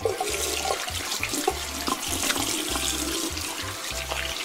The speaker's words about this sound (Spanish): Pero déjame que me lave las manos primero, están bien sucias.